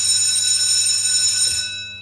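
A school bell rings in one continuous, bright metallic tone with a buzzing edge. It holds steady and loud, then fades out near the end.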